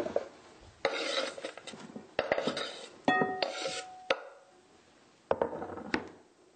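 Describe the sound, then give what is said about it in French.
A knife slices vegetables diagonally into larger pieces, making a few separate crisp cuts and knocks with scraping between them and a brief metallic ring in the middle. “on peut les trancher un peu à la diagonale. Alors voilà.”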